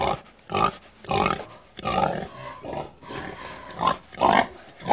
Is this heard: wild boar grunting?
yes